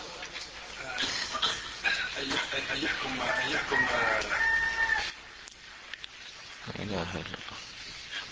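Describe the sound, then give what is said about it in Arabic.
A human voice imitates a rooster crowing during a lecture, giving a drawn-out, wavering crow-like call lasting several seconds, followed by quieter talking. “هذه حكاية صياح ديك وحكاية صياح الديك”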